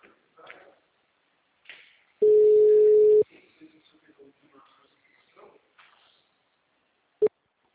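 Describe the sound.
A phone ringback tone during an outgoing call: one loud, steady tone lasting about a second. Voices are heard before and after it, and a short sharp beep comes near the end.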